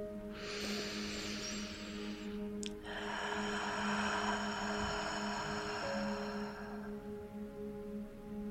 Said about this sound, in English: As you exhale through your mouth, give this a try. Gently restrict the flow of air leaving your throat. It might sound like this.